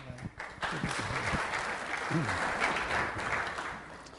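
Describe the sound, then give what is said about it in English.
Audience applause welcoming a speaker to the stage, a steady dense wash of clapping for the whole stretch, with a voice briefly audible over it. “So I'm thrilled that he's able to be here. Will you please welcome him?”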